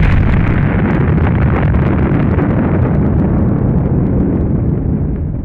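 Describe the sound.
A missile explosion, a loud continuous rumbling roar that fills the whole clip and fades slightly at the very end.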